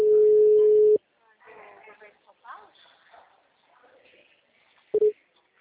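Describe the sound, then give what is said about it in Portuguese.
Telephone call being dialed: a steady dial tone lasts about a second and cuts off, faint voices murmur, then two short tone beeps sound near the end. “Tô ligando.”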